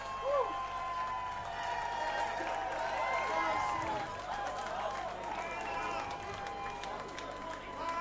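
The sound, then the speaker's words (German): Crowd screaming loudly at a festival stage, a dense, continuous roar of many high, shrill voices that stays strong and steady for the whole stretch. “Und jetzt höre ich hier, die schreien jetzt noch lauter. Ich glaube, es geht sicherlich weiter.”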